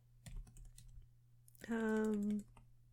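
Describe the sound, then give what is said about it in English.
Faint clicks of typing on a computer keyboard tap unevenly at first. A sustained, voiced tonal sound follows and briefly rises above the quiet keystrokes. “Let me type it in right.”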